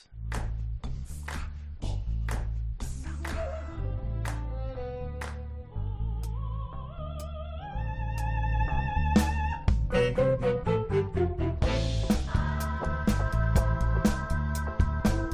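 Music by a Catalan band formed in music therapy classes plays alone: a steady low bass pulse under crisp percussive hits and shifting melodic lines, growing fuller and louder in the second half.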